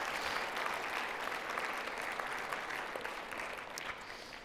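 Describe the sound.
Church audience applauding its staff: steady, dense clapping that carries on evenly throughout with no talk over it, easing off slightly near the end.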